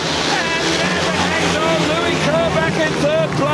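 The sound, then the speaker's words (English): Speedway motorcycles race out of the last corner at a national speedway stadium in Manchester, a loud, continuous engine roar with whining tones that swell and shift in pitch throughout. “This is Speedway out of the top draw. One last blast out of the last corner.”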